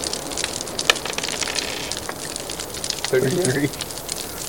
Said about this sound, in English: All right, the fire just, like, consumes both the blobs, and they just melt in the pool.